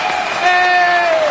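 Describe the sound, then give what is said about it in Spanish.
Audience applause in a shopping mall, a broad crowd clatter running under a sustained voice-like tone and growing slightly louder midway. “Es la hora de que aplaudan, por favor. A ver, que los oigan.”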